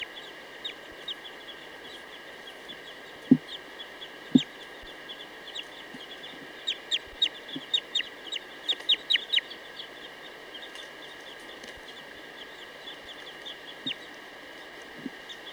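Bird calls played back as a test: bursts of rapid, high, sharp chirping and clucking notes over a constant high hum, with a couple of low knocks early on.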